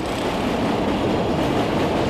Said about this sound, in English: another train just went by overhead.